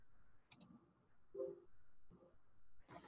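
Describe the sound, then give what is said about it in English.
Two quick, sharp mouse clicks on an on-screen play button, close together and fairly faint, followed by quieter low rustling. “I'm going to click in front of question number one. And I'm going to click my play button to read the question to me.”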